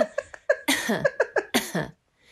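Coughing from a person showing how they can now cough compared with a week earlier: a quick series of many short, voiced coughs in an uneven rhythm, ending in one longer burst before silence.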